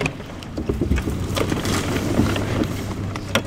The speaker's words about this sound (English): paddles back to the street entrance where people have parked to collect their belongings